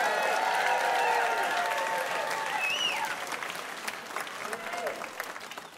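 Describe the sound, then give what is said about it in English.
Audience applause fills the Museum of Commerce in historic Pensacola Village at an evening show. Clapping is dense at first, then gradually thins, with voices coming through as it fades. “Good evening, and what a fantastic audience we have in the museum tonight. Give yourselves a big hand.”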